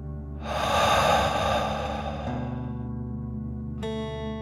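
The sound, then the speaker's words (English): One slow, deep breath taken in and pushed out through the mouth as a calming breathing exercise, a soft airy swell that rises and fades over gentle sustained music tones. “imagining you are breathing fire like a dragon. Ready? Deep breath in and out.”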